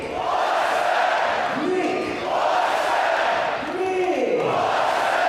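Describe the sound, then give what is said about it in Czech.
A stadium crowd of about 6,000 fans at an ice hockey game in České Budějovice's Budvar Arena chants the goal scorer's name after a goal. A loud, sustained roar carries a repeating chant that rises and falls. “Nikulesen tedy dává gól a teď ho zase Budvar Arena, tady diváci oslaví jméno úspěšného střelce.”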